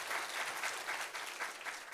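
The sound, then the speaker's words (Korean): An audience gives warm applause to the S Seocho community after their special presentation at an early-morning church prayer service, steady clapping with a slightly pulsing rhythm and no voices above it. “한번 S서초 공동체 한번 힘찬 격려의 박수 부탁합니다.”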